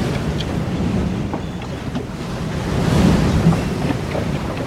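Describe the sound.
Sea waves and wind sound as effects for a drama scene at sea, a continuous rushing roar that swells slightly near the middle, with no voices.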